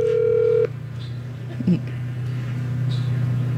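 Telephone dialing tones from someone placing a call to check on a beer and wine liquor license. A steady electronic tone cuts off after a moment, then faint short beeps follow over a constant low hum.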